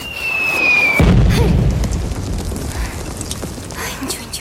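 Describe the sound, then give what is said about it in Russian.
An explosion on a film battlefield lands as a single deep, heavy boom that rolls on and decays over a few seconds. A thin high tone runs just before the blast. “Нина ползет по полю боя, рядом раздаются взрывы.”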